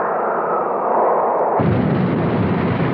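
Rocket engines roar at ignition for a launch in the film Moonraker: a dense, continuous rushing blast with no pause, which turns abruptly fuller and heavier partway through and then holds steady.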